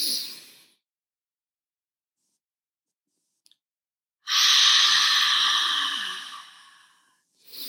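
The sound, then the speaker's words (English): A deep breath is drawn in through the nose: a loud, airy inhale lasting about two seconds after a stretch of silence. It tapers off at the end, with fainter breath sounds at the very start and close. “Our last and final deep inhale in on five.”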